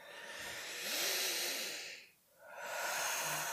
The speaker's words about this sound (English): I need to take a deep breath.